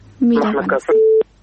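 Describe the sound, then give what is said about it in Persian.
A telephone line tone after a dropped call: a brief, steady, single-pitched beep holds evenly for a moment and then cuts off sharply. It follows a short stretch of a voice talking. “فکر کنم تماس قطع شد.”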